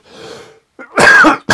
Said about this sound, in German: So, das war jetzt hier jedenfalls meine angekündigte Hustenattacke.